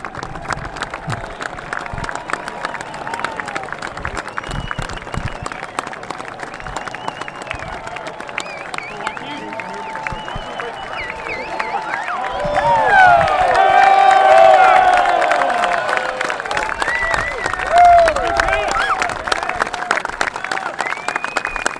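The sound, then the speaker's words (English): Crowd ovation from Masters golf patrons greeting Tiger Woods at the first tee on his return from injury: sustained clapping and cheering that swells louder midway, then eases back to steady applause, with voices in the crowd. “And the Masters patrons Thursday welcomed him back from injury and to the Masters first tee with a rousing ovation.”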